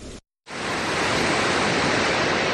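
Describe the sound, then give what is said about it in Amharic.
Sor waterfall in Becho district, Illubabor zone, Ethiopia: a loud, steady roar of rushing water that breaks off briefly at the start, then continues unbroken. “ይህ በኢሉ አባቦር ዞን በቾ ወረዳ የሚገኘው የሶር ፏፏቴ ነው።”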